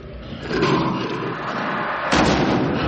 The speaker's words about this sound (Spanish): La leona rueda alcanzada por el disparo de Karen